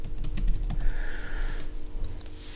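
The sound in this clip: Rapid typing on a computer keyboard while jotting down a quick note. Many light, irregular key clicks come in bursts, with a short steady tone partway through and no voices.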